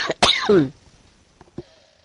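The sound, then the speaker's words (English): Coughing from someone with a cold: two rough, loud coughs in quick succession, followed by near silence with a few faint small sounds. “seek my bed and see if I can't, get done with this coughing fit”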